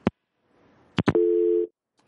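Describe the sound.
A telephone busy tone after a call drops: a few sharp clicks, then one steady, buzzing beep of about half a second, with quiet line hiss between.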